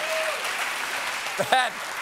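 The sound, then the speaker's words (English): Parents clapping in steady applause under a comedy set, a continuous dense patter throughout, with a brief voice rising over it near the end. “That is actually all the parents clapping because they know that joke is true.”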